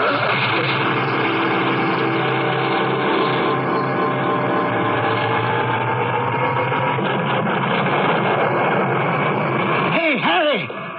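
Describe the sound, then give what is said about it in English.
Loud, steady mechanical drone of a tea machine running, a dense whirring hum with layered sustained tones that holds evenly for about ten seconds before cutting off near the end. “The tea machine's on.”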